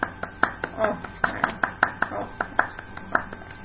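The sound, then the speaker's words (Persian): Faint hand clapping in a quick, evenly spaced rhythm. Many sharp, separate claps sound one after another instead of merging into a dense roar. “آفرین آفرین. خودتون تشویق کنید انقدر خوبید.”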